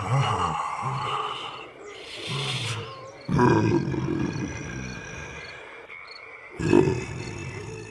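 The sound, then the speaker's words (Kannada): A lion snoring while asleep under a tree: deep, rough, rumbling breaths like low growls, arriving in a few long, loud bursts separated by short quiet gaps, with no talk. “ಹಿಂಗ ಸಿಂಹ ಒಂದು ಒಳ್ಳೆ ಜಾಗ ಹುಡುಕಿ ನಿದ್ರಿ ಮಾಡ್ತಾ ಗೊರಕಿ ಹೊಡಿಲಿಕ್ಕೆ ಶುರು ಮಾಡ್ತು.”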